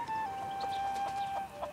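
Clucking from an injured, limping chicken with a suspected broken toe or claw: a few soft, short clucks over a steady background tone, with no other sounds.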